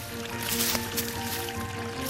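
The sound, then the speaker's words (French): A small trickle of mountain water in the Hautes-Alpes runs in a steady, soft, continuous flow with faint bubbling, with no talk over it. “Voilà, ce petit filet d'eau vous est offert par Christian Couloumi, par les Hautes-Alpes, par le soleil, par cette montagne que l'on aime raconter.”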